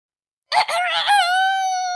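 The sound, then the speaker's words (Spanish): A rooster crows from the highest branch of a tree: one loud, strained call that opens with a wavering, broken start, then settles into a long, steady high note held for over a second. “el gallo se encaramó a la rama más alta. Desde aquella altura, el gallo gritó:”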